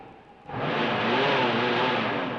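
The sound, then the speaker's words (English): Car motor running on a car whose fender is cutting into the wheel: after a quiet moment the engine surges into a loud, steady, broad roar with a slight revving whir, then holds that level to the end. “Sure I can. The motor works, see?”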